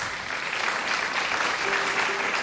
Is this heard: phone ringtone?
no